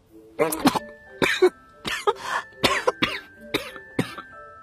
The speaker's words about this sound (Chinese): 正玩鸭子的展昭的脸低得低了些，水跑进鼻子里去了，直咳嗽。